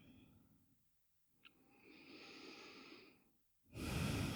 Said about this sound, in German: Atme ein und aus.